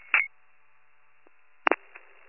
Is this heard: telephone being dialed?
yes